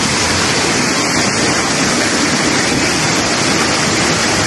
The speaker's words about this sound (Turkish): Her taraf taştı. Kimi aracında mahsur kaldı, kimi motosikletini taşkın sularına kaptırdı.